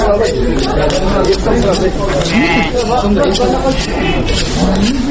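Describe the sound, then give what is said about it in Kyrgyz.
Sheep bleat at Bishkek's old Talchok livestock market on a holiday while butchers prepare for slaughter. Several wavering bleats rise above constant crowd chatter and people speaking throughout. “Мен Бишкектин эски Талчок деп аталган мал базарында турам. Учурда касапчылар шымала Бишкек киришип жатышат. Мына бычакты шыкылдата курчутуп ак жолду азыр кой союуга кам жаткан чагы.”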